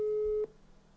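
A telephone call tone from an unanswered call: one steady, clean beep lasting about half a second before cutting off abruptly into faint background hiss.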